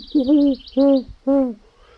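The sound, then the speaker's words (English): A person imitates a great horned owl call with three low, hollow hoots, each about a third of a second long and evenly spaced, with short silences between them. “So while the solid owl was calling, I imitated the call of the great horned owl.”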